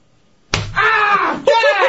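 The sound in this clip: A wetted hand delivers one sharp slap to a furry backside, a loud, crisp smack followed at once by strained vocal cries of reaction.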